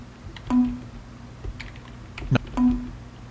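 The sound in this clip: Typing on a computer keyboard: a few sparse, faint key taps spread out over a quiet background.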